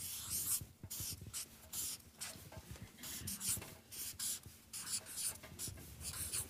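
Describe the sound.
Writing on a board: many short, scratchy strokes in an irregular rhythm of quick scribbles and brief pauses, fairly faint throughout.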